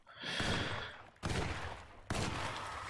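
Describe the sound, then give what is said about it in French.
Gunfire in a survival horror video game: a faint, sustained noisy burst followed by two sharp, loud reports that each cut in abruptly. “Ah oui, c'est vrai que quand ça tire, c'est un peu là les phases de gameplay justement.”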